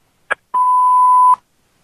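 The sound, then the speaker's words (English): An answering machine beep sounds alone: a short click comes first, then a single steady, mid-high tone holds for just under a second and stops cleanly. “Leave me a message after the beep.”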